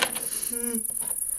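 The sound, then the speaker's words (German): A cricket bought from a pet shop chirps in a high, shrill, continuous trill that runs steadily through the whole moment, with a brief vocal sound in the middle. “Sag mal, wo hast denn du die blöde Grille her? Hab ich im Tierlader gekauft.”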